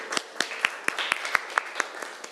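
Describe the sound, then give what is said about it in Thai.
Students clap for themselves in class with a regular train of crisp, evenly spaced claps in a quick steady rhythm, ending with a softer final clap. “ปรบมือให้ตัวเองหน่อยค่ะ”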